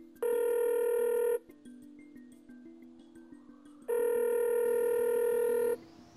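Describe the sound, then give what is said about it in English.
Telephone ringing on an outgoing call, two long, loud, buzzy rings separated by a quiet pause of about two and a half seconds with faint clicks between. “Let's dial him up.”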